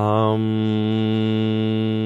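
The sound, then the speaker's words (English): A person hums a steady, sustained tone during a roll-down exercise. The hum is loud, rich in harmonics and unbroken for the whole stretch, with only a slight shift in tone at the very start. “Now we're going to hum, rolling all the way down to the bottom.”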